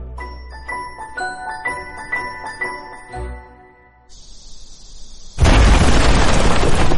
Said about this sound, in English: That was the bomb that still makes Kent jump.